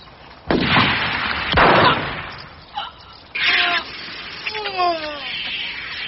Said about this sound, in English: Good shot! Two down and one to go.